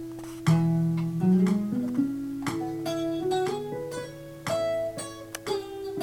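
An electric guitar riff, the first two parts of a four-part riff, played slowly at tempo 60 as practice: a steady run of plucked single notes stepping up and down in pitch, with no talking.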